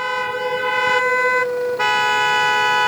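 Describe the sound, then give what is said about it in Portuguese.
Car horns honking in protest at a slow toll plaza in Corbélia, a loud, steady, tonal blare held nearly without break, with a brief dip before the sound resumes. “isso aqui é em forma de protesto, né, esse buzinaço, né, e foi assim durante toda a manhã”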